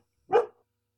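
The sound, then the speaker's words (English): A single short, sharp bark from a dog, one quick burst lasting a fraction of a second in otherwise quiet surroundings, with no voices over it. “That's my dog in the background.”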